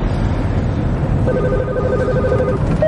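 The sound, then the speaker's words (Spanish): A phone rings with an incoming call. A faint, steady electronic tone with a couple of pitched lines enters partway through over constant loud rumbling noise and keeps going to the end. “cuelga y la otra llamada salta.”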